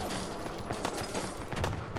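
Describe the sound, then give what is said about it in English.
Video game gunfire against raiders: a dense burst of overlapping shots rattles continuously and loudly for about two seconds. “We got raiders. Let's start firing our weapons.”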